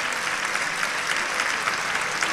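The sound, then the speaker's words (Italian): Audience applause for a performer who told their life story on stage, a dense, even wash of clapping held at a steady level throughout. “Io vi ricordo un applauso, direi che è super meritato.”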